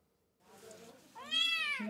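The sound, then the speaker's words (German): A young kitten about eight weeks old, in poor condition and flea-infested, meows: a soft, faint cry followed by one clearer, high-pitched, drawn-out meow. “Um die 8 Wochen alt ist dieses kleine Kätzchen und in keinem guten Zustand.”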